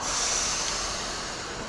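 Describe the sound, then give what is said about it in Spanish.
A metro train arrives at a station with a loud, steady rushing roar and hissing high tones that ease slightly toward the end. “Entonces ya vámonos al metro, como les digo, y ya estando arriba, pues yo ya les indico exactamente por qué línea se van. Okay, here comes our train, guys. Get ready.”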